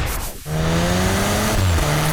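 Cupra car engine revving hard with tire squeal in an advert: a loud, sustained roar with shifting engine tones following a brief dip in sound.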